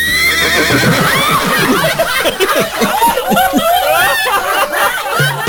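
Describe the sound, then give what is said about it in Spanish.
A mare neighs in a long, quavering whinny, a loud, shaky series of rapid pulsing cries that wobble up and down in pitch. “¿Qué habla tu yegua?”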